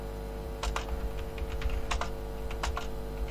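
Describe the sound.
Fast, irregular typing on a computer keyboard: many crisp key clicks in uneven bursts over a steady low background hum, with no voices.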